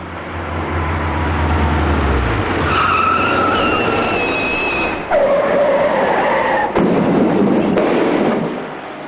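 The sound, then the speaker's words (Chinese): Tires screech as a heavy truck skids out of control on a wet, rain-slicked downhill road. A loud, continuous roar carries a few high-pitched squealing tones throughout, with a couple of brief dips in level. “事发当时，驾驶这辆大货车的司机未能控制好车速和跟车距离，加上此处路段属于主路的下坡处，以及雨天道路湿滑，这辆大货车随即失控，”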